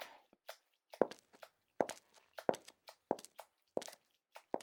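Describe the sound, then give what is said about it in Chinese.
Footsteps of someone walking away, heard as many soft, evenly spaced steps in a steady walking rhythm, faint and alone with no talk over them. “啊，真的走了，你听他的脚步声。”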